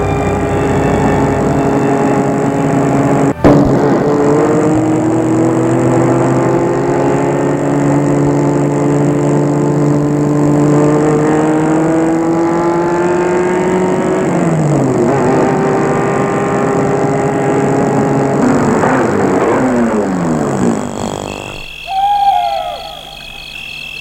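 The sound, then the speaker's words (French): A car drives up and stops outside a laboratory at night, its engine holding a steady, harmonic drone, dipping in pitch, briefly revving, then cutting off abruptly near the end. “une voiture s'est arrêtée devant le laboratoire”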